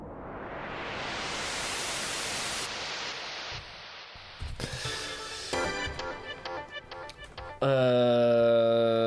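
Synthesizer noise through a filter swept from very low to fully open, with heavy reverb and plenty of delay: a hiss growing steadily brighter for a few seconds, then a cut to echoing, fragmented tails and a sustained bright tone at the end.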